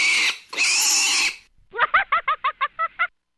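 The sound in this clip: A pig makes two long, harsh noisy squeals, then after a pause a rapid, even run of eight short, squealing oinks that stops abruptly.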